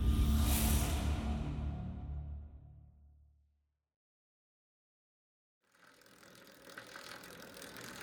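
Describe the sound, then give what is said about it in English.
A bicycle pedaled on a spring 1941 ride to work gives a soft, airy whirring that fades into silence. After a silent gap, the whirring returns quietly and builds slightly toward the end. “In the spring of 1941, Alan Turing pedaled his bicycle into work.”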